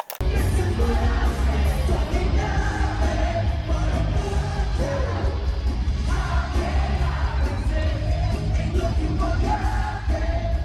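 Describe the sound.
An audience member's iPhone captures a live rock concert: band and crowd yelling blend into a harsh, compressed, distorted wall of sound that stays loud and dense throughout.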